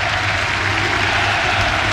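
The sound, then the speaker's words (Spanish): Steady applause from Unión La Calera supporters during a minute of tribute before a football match against Colo-Colo, a dense, even patter of many hands without pause. “Y es un minuto con aplauso por lo que vemos ahí del hincha de Unión La Calera.”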